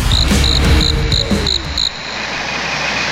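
A cricket chirping sound effect: a series of short, high chirps at an even rhythm over a low rumbling background, stopping partway through and leaving only the faint rumble.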